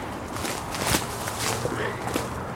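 Footsteps of someone walking down a steep slope, a few soft, muffled crunching steps in an irregular rhythm, faint and low in level.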